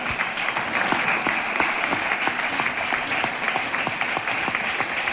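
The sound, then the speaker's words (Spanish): Steady applause from an audience at a tribute event honoring a former mayor, many dense hand claps sustained at an even level from start to finish without a break. “aplausos a Pedro Rodríguez, alcalde.”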